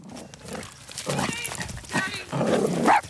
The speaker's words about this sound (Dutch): Oh, er komt even een hond op mijn hond afgerend. Die komt even spelen.